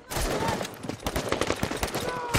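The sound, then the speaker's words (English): Soldiers charge out of a trench toward an enemy fortification, firing their weapons as they advance. Many rapid, overlapping gunshots crackle in a dense, uneven volley that never lets up. “The unit keeps advancing, pausing at intervals to fire.”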